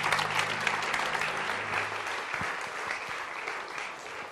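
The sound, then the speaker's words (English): An audience applauds to welcome a guest: dense, continuous clapping that stays steady and full from start to finish. “tervitame teda meie keskele ja julgustame teda aplausiga.”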